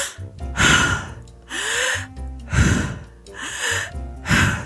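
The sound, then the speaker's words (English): Deep breaths drawn in and let out, the slow, airy inhales and exhales alternating in a steady rhythm of several full breaths, fairly loud and with no talking. “If you're feeling stressed, take at least 3 deep breaths. Inhale, exhale.”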